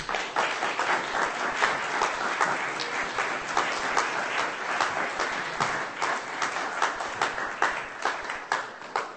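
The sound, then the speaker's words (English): Audience applause welcoming a performer to the stage at a reading: dense, steady clapping from a crowd that stays loud and even for about nine seconds. “Give him a hand. Please welcome Stephen Millward to the stage.”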